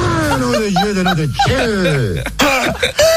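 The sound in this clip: A person clears their throat, a loud, raspy, strained vocal rasp with short coughing bursts over about three seconds, its tone gravelly and wavering.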